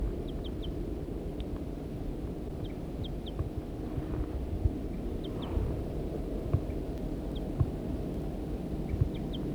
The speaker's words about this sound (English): The female's calling from the nest.